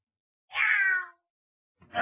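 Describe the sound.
A cat meows twice. The first meow is drawn out and mid-pitched, lasting about half a second. After a pause, a second meow begins and is cut off at the end. No one talks.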